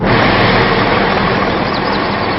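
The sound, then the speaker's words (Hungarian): Several trucks idle at a haulage depot, giving a loud, continuous, even engine rumble with no breaks or voices. “Ez a telephely általában üres. Most azonban több kamion is vesztegeli.”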